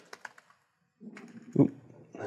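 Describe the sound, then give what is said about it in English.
A few quick, light keystrokes on a computer keyboard while editing code, soft clicking in a short burst, followed by a person talking. “If I can type it properly, there we go.”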